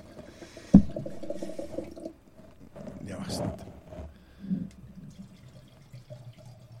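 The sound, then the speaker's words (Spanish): Red Ribera wine splashes as it is poured into glasses, giving a short liquid gurgle with a sharp clink near the start, while voices talk around it. “Suena bien, No sé si el oyente lo percibe, pero está sirviendo las copas”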